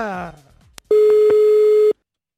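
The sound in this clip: A telephone ringing tone sounds on a call to a hotel in Norrköping: one loud, steady beep lasting about a second at a single pitch, after a short stretch of speech and a click.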